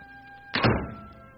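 A door thuds once as a father arrives home at the house door. It is a short, dull, fairly loud impact that fades quickly and is heard alone.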